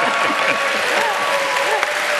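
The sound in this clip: An audience applauds and cheers at a live show in a dense, steady wash of clapping, with voices shouting and whooping over it.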